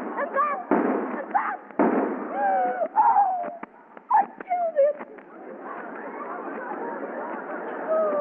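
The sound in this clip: Two sharp handgun gunshots crack out early on, followed by a scatter of small clicks and brief voices.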